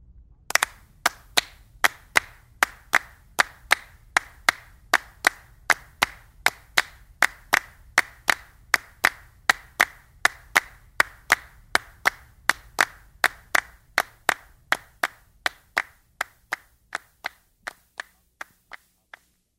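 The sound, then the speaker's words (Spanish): Rhythmic flamenco hand clapping, palmas, a long run of sharp, evenly spaced claps at a steady brisk tempo that grow gradually quieter toward the end. “Palmas.”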